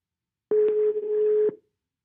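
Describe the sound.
A telephone ringing tone sounds during an outgoing call: a single steady, fairly low-pitched beep lasting about a second, heard alone.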